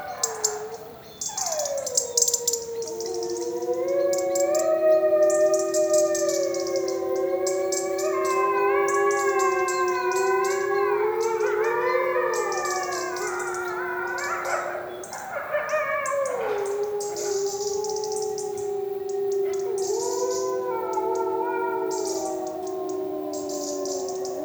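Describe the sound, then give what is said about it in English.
Six to eight wolves howl together on a hill, sitting at its lowest point. Long, sliding howls overlap in a loud, layered chorus that swells and then thins out toward the end. “6 to 8 wolves howling, I cannot be very precise. And, you know, the acoustics were beautiful because it's like a hill and they sit on the lowest point.”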